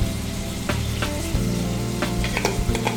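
Cinnamon sticks and dry spices fry in a pan with a loud, continuous sizzle, and a few sharp ticks and clicks break through the steady hiss.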